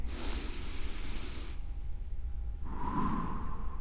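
A person takes a deep breath in during a guided meditation, a breathy hiss lasting about a second and a half, followed after a pause by a second, softer rush of air.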